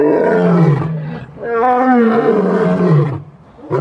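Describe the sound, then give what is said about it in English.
An African lion roars in a few deep, loud, moaning calls with throaty grunts between them. The calls come close together and are heard alone. “Imagine then what it might sound like if that lion's roar”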